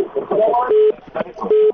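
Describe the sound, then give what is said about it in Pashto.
A telephone call is cut off during a radio call-in show: two steady electronic tones sound between bursts of a garbled, muffled voice on the line. “خیر، ټلیفون قطع شو.”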